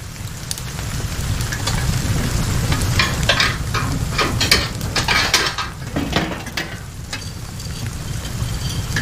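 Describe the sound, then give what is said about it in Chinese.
Metal scraping, clattering and rattling as a stove fire is stoked to warm a cold room. The busy scraping and clinking runs steadily throughout over a low, constant rumble. “屋里是挺冷的，我把炉子再通暖和一点。”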